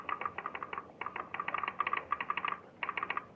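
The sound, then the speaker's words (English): Telegraph sounder clicking in a telegraph office: many sharp, quick clicks in irregular bursts separated by brief pauses, fairly quiet, with no voices. “The Lone Ranger, standing next to him, interpreted the click that came from the sounder”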